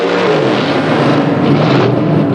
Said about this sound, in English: revs his engine. The cowboy follows suit.